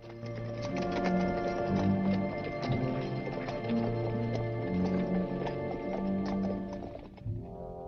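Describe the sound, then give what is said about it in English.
Horses' hooves clatter as two riders hurry off down a trail, a quick, steady clip-clop of many hoofbeats carrying on for several seconds before fading at the end. “The two of them ride hastily down to Onati, and the party rides on.”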